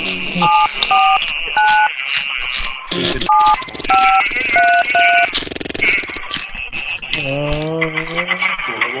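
Telephone keypad tones sound as a number is entered into an automated phone line: several short, clipped two-tone beeps in quick groups over a dense, noisy background.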